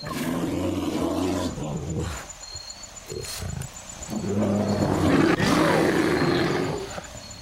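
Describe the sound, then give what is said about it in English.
A black bear vocalizing with deep, rough roaring and growling. One long burst is followed by a quieter stretch, then a second, louder and sustained burst. “The sound of a black bear, courtesy Missouri Department of Conservation.”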